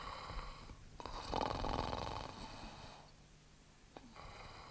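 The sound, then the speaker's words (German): A man snoring in deep sleep: a few long, rasping, breathy snores, loudest in the middle, then a quieter breathing stretch and a short click near the end. “Lächerlich, dieses Schnarchen.”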